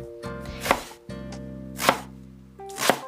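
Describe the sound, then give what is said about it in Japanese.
A knife slices thinly through a halved vegetable laid cut side down on a cutting board, three crisp, evenly spaced strokes over steady background music. “それから切り口を下にして薄切りにしていきます”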